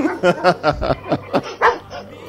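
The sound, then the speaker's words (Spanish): A dog barks in a rapid run of several sharp, mid-pitched yapping barks, loud and close together, with no talk over them. “No, han metido un perro ahí. Ese perro que no se cuele, porque este es el problema de los gatos.”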